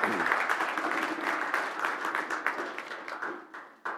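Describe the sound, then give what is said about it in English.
Congregation clapping during a church sermon, a burst of many hands that starts full, then thins into scattered, sharper individual claps toward the end. “I feel like giving God a clap.”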